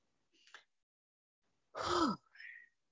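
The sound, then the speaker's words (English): A deep breath: a faint short intake, a pause, then a louder voiced exhale that falls in pitch, ending in a soft airy hiss. The breathing is quiet overall. “Sorry, I'm just taking a breath.”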